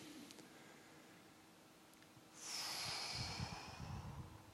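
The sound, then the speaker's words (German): Slow, deep breathing during a church sermon: a soft, airy rush swells about midway and holds steadily to the end, faint, with no talk. “Breathe with me again. Und atmet nochmal mit mir.”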